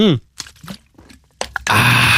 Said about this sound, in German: Und ich muss zwischendurch relativ viel trinken. Tut mir leid, warte kurz.